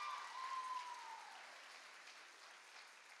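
Steady applause from a church audience, a dense even patter of clapping that holds at a fairly constant level and eases slightly toward the end.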